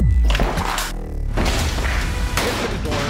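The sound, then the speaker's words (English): Flash bomb explosions: loud booming blasts with whooshing, crackling tails follow one another in quick succession. “Flash bombs.”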